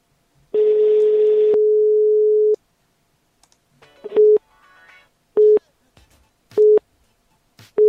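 Telephone line tones as an outgoing call rings through: one long steady mid-pitched tone, then several short beeps repeating at even intervals, with no voices.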